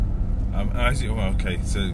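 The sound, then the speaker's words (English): A car being driven on a daily commute gives a steady low engine and road rumble that continues throughout, underneath a voice talking. “as you can hear, I'm driving, hence Driven to Sleep.”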